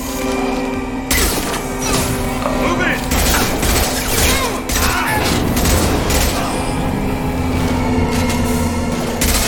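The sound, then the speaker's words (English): Battle rifle gunfire in a shooter video game, dense bursts of loud, sharp shots repeating throughout with clattering mechanical noise between them. “we're out of shotgun ammo. Back to battle rifle.”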